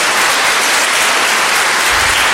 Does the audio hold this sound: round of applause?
yes